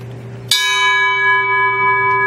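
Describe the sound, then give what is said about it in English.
A church bell tolls for those lost at sea: a single loud strike at about half a second, followed by a long, steady ring full of bright overtones that hangs on to the end without fading. “and we toll the bell for them”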